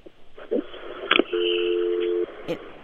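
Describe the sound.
Phone line tone after a dropped call-in call, a single steady low electronic tone lasting about a second, preceded by brief clicks and muffled line noise.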